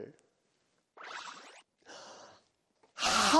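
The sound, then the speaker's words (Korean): A person yawns twice, two breathy, drawn-out exhalations with a voiced edge about a second apart, followed by a sudden loud rush of noise at the end. “하품, 하품,”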